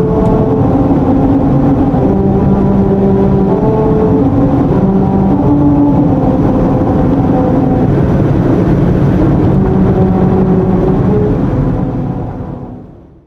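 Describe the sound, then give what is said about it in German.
A car drives over a grooved musical road, its tires droning a sequence of sustained tones that step between pitches over loud road rumble, ending as the sound fades out. “Hört ihr das? Das ist in der Straße. Das sind einfach kleine Risse in der Straße, die absichtlich so den Ton machen.”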